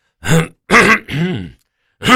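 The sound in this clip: A person clears their throat in a few rough, gravelly bursts, each short and fairly loud with brief gaps between, heard alone with no talk.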